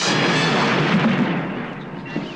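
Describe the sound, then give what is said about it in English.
A Romulan fireball strikes a starship in a loud sci-fi explosion effect, a broad rumbling blast that fades gradually over about two seconds. “Another Romulan fireball hits the ship.”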